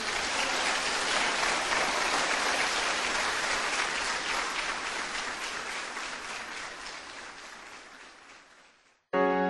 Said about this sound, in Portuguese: Aplaudam o seu Deus.